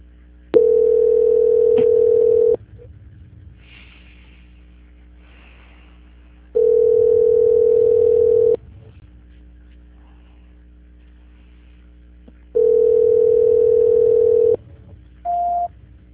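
A telephone line tone plays during a call transfer: three steady, even beeps of about two seconds each, separated by longer silent gaps, followed by a short higher blip at the end.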